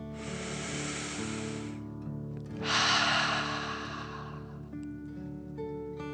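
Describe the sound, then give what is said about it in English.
A slow, deep breath drawn in through the nose, then let out through the mouth: a long airy inhale, a short pause, then a stronger, breathier exhale over a steady low hum. “Take another slow, deep breath in through your nose and out your mouth.”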